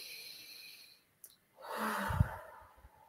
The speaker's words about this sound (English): I just want to just invite us to take a breath, breathe in,